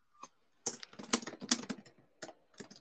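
Keystrokes clatter on a computer keyboard as someone types into a document: a lone tap, then a dense, irregular run of clicks, a brief pause, and a few more taps.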